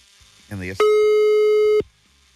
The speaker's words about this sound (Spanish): Ya estamos marcando, ¿eh?